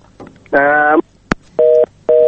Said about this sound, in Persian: ورور تماس قطع شو له موږ سره ټولې خبرې وکولې فقط سندرې پات شولې